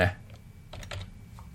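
Typing on a computer keyboard while entering a value into a map scale field in a program: a few faint, light key clicks after a short thump at the start, with no voice.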